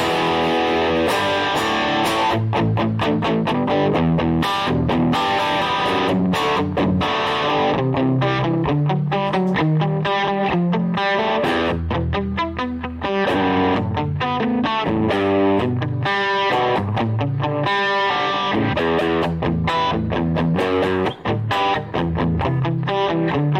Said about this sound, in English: It's like an echo pedal. Yeah, I know there's some echo here. I'll turn the echo off. There we go. All right, we still got some echo over there